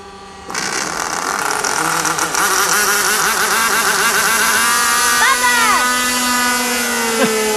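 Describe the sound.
A model aircraft engine starts up, jumping abruptly into a loud, continuous high-pitched buzzing rattle that holds steady to the end.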